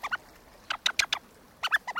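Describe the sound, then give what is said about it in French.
Squeaky chirps from a rubber blackbird call shaken by a child to imitate a blackbird: many short, bright, high chirps in quick clusters with brief gaps between them, and no talking. “Là, qu'est-elle en train de secouer en ce moment? Là, elle fait du merle, figurez-vous.”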